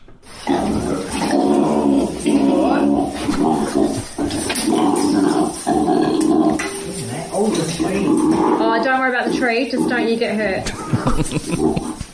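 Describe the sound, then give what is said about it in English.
A juvenile koala growls, found in a Christmas tree at a home in South Australia. Its loud, harsh guttural rasping and snorting carry on almost continuously, with squealing tones toward the end. “That noise there was horrific. That is actually a juvenile koala.”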